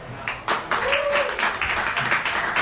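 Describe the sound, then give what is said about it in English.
Scattered clapping greets the head coach of the Frederick Academy Knights football team: a small group of irregular, fairly sharp claps that rise to a steady patter after the first half second. “All clapping.”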